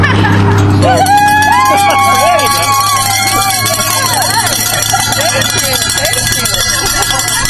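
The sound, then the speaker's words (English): Cowbells rung by Orange County Wheelmen volunteers at the first rest stop of the Ride Around the Bear cycling event clang loudly and continuously, with voices and crowd noise mixed in. “for those of you listeners that heard that. The cowbell ringers sit here at rest stop number one on the ride around the bear on Bike Sport Radio.”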